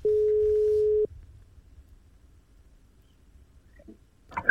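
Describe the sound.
A steady, mid-pitched telephone line tone sounds while a call is placed. The single unbroken tone lasts about a second, then cuts to near silence with faint background noise and a brief rustle at the end.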